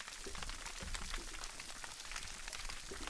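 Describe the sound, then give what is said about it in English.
Snapping shrimp in the ocean off Baja crackle and pop as they snap their claws shut underwater. The sound is faint, dense and continuous, made of many rapid clicks. “The crackle and popping that you hear in the background are small crustaceans called snapping shrimp. They make that sound by snapping shut their claws and use it to stun their prey.”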